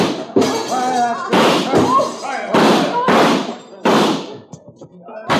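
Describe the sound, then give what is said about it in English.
Gunshots fired to shoot out the lights in a 1949 film: a series of loud, sharp bangs at uneven intervals, each with a short ringing decay. “I think I shoot out the lights before I go.”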